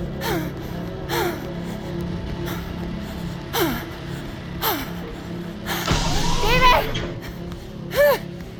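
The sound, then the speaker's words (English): Ragged, strained gasps from a man choking and struggling for air, apparently during an allergic reaction, recur in a long irregular series of sharp, squeaky intakes of breath, the last ones louder and more frantic, over a low steady hum. “He can't breathe. He's choking.”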